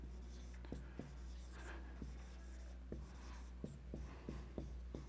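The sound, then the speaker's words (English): Faint writing on a board during a church sermon: scratchy strokes and many small sharp taps as the marker or chalk meets the surface, in an uneven rhythm. “You read my writing, I have horrible writing. What does that word mean?”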